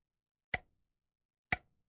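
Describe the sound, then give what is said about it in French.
A large clock ticks in a quiet house. Two sharp, dry ticks land about a second apart, each followed by a faint short ring, with near silence between them. “La grosse horloge ronflait.”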